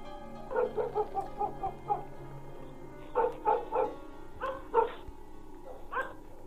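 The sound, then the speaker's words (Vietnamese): German shepherd dogs barking outside: many sharp, moderately loud barks come in irregular clusters with short gaps between them. No voices are heard. “Ngoài kia, gió vẫn thổi, mấy con chó bẹc dê của ông ấy vẫn cứ cắn nhấm nha nhấm nhặng.”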